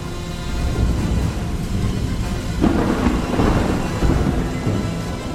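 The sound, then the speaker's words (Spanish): A thunderstorm: low, rolling thunder rumbles over a steady hiss of rain, with one stronger thunder swell near the middle and no voices. “me llegó a mis oídos el sonido de la salvación. Más vale tarde que nunca. Era la tormenta.”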